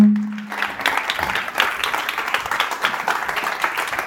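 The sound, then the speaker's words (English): An audience applauds to welcome a poet to the stage at a literary event. A short steady tone is followed by dense, lively clapping that continues evenly to the end. “Please put your hands together and welcome to the stage, Inua Ellams.”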